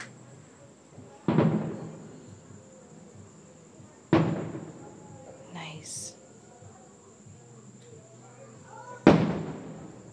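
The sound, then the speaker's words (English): Fireworks going off in the distance: three separate deep booms spaced several seconds apart, each with a rolling tail that fades slowly. A faint, steady high whine runs underneath. “So anyway, we're just listening to fireworks.”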